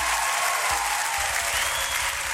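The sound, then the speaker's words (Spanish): Applause for a group: a dense, steady roar of many hands clapping, sustained at an even loudness throughout without a break. “un aplauso para ellos que están ahí en el Instagram”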